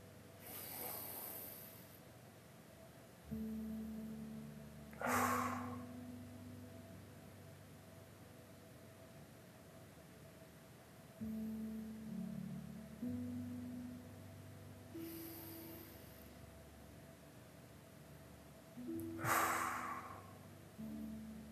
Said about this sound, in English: I breathe in through my nose and out through my mouth, but whatever feels right for you. So this is what it looks like for me.